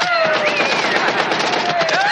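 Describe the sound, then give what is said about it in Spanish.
Simulated gunfire from sonic training weapons rattles in dense rapid bursts during a military exercise scene in a 1986 war film, with wavering electronic tones over the continuous loud clatter. “Webster se asusta al ver a los de reconocimiento saltar sobre ellos disparando sus armas sónicas. Los chalecos de los de empiezan a sonar simulando que son alcanzados por las armas.”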